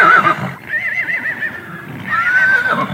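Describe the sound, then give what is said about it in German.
Mustangs in Wyoming neigh in a few loud, wavering whinnies, the middle one quavering in pitch, with the last rising high and clear toward the end. “Das sind nämlich tatsächlich Mustangs, also Wildpferde, so wie man es sich im Film vorstellt bei echten Cowboys”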